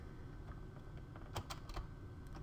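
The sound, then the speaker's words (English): Keys clatter on a computer keyboard as someone types an Excel formula, a few faint, crisp taps scattered across a quiet background. “We're going to type equals lin est.”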